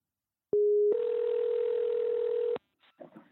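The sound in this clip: A telephone call tone while ringing an older sister: a short steady tone, then a longer unbroken tone of about two seconds that stops abruptly, followed by a faint voice.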